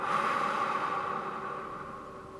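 Long, slow exhale of breath during a guided yoga breathing exercise, a steady airy rush that fades slightly toward the end over a faint sustained tone.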